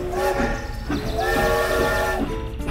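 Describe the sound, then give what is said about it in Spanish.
A storybook train sound effect of a green-line train pulling into a station, with a continuous rumble under sustained, steady whistle-like horn tones that hold through most of the moment. “Anunció su llegada el Nutritren a la estación de color verde.”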